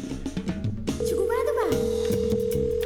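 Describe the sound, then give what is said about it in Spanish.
A telephone call to somewhere in the United States rings out. After a moment of voices, a steady mid-pitched ringback tone starts and holds unbroken to the end. “Esperemos tener oportunidad de que sí nos reciba la llamada.”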